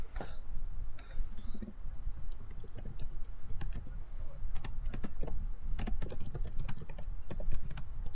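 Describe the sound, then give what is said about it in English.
Rapid typing on a computer keyboard, many irregular light key clicks in quick bursts, fairly faint and steady throughout, with no talking. “I just typed to myself a note that I should silence my audio because I heard some animal run down the stairs, but probably typing that note out made just as much noise as the animal”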